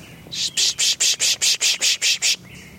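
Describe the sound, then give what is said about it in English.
A chipmunk gives a sharp, high chipping call, evenly repeated many times in a fast, steady rhythm before stopping. “That's a cardinal, a chipmunk over there doing that chipping.”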